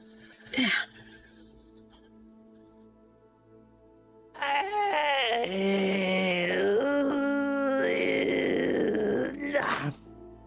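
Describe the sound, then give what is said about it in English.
A person groans while stretching: one long, loud, drawn-out voiced groan lasting several seconds, with a wavering pitch, after a short earlier burst. “What's all that noise? Oh, sorry. I'm stretching.”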